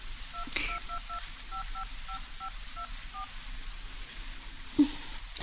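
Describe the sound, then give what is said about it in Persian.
Telephone keypad tones as a number is dialed on a newly connected line: many short, evenly paced two-note beeps, faint over a steady hiss, followed later by a sharp click. “خط تلفن وصله، میتونی زنگ بزنی.”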